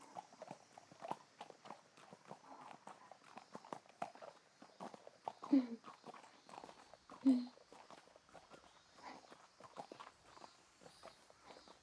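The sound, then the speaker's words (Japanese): Horse hooves walking along a forest bridle path, a steady clip-clop of many even hoofbeats that keeps a regular walking rhythm throughout. “馬に乗っての森の中へのお散歩に出かけよう。”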